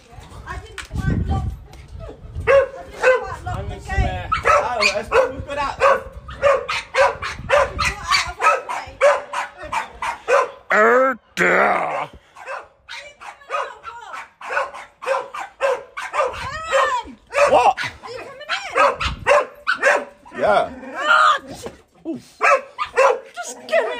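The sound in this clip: Many dogs barking in a loud, rapid, overlapping clamor of sharp barks and high yips that keeps up without letup, with people's voices mixed in.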